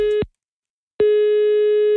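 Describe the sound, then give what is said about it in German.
Ringing tone of an outgoing telephone call: a steady mid-pitched tone cuts off, and after a silent gap a second identical tone sounds, loud and unbroken, for about a second. “Und da rufe ich jetzt mal den Stefan aus Rüttenscheid an.”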